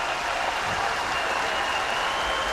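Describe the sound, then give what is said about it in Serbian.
A tennis crowd in Niš applauds the winner of the first match, a dense, steady wash of clapping that holds at an even, loud level throughout. “evo čujete fon, čujete kako publika u Nišu sada pozdravlja pobednika prvog susreta Mijomira Kecmanovića.”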